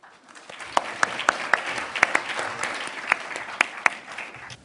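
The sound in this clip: Applause from a lecture audience welcoming a professor to the podium: steady massed clapping with a few sharp, louder individual claps standing out, sustained for several seconds before tapering off at the end.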